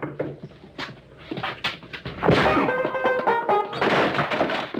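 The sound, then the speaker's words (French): Blows strike someone as several dull thuds and whacks land at irregular intervals. A harsher, louder crashing burst comes midway, and the impacts stay fairly strong to the end. “Il a osé me frapper.”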